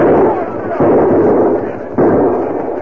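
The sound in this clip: Gunshots in a western-style shootout: a few muffled, booming reports, each followed by a long fading tail, with no talk over them.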